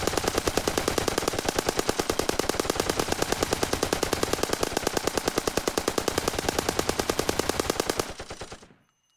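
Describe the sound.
Machine gun fire in a long, unbroken burst of rapid, evenly spaced shots lasting about eight seconds, loud and dense throughout, then cutting off with a brief fading tail.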